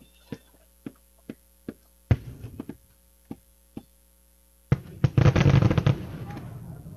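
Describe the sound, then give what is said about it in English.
Fireworks display over a river, watched from a ballpark concourse during a baseball game: a few sharp isolated bangs and crackling bursts, then a dense, loud barrage of rapid crackles and booms, with a steady low hum underneath. “they have walked to the concourse where they can watch the fireworks display over the river.”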